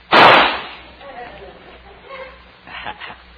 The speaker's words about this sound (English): I'll just take my trusty rifle here and watch me ring the bullseye. Here goes.